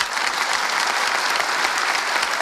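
An audience gives polite applause on a host's request, an even, moderate stream of many hands clapping. The clapping holds steady from start to finish with no voices.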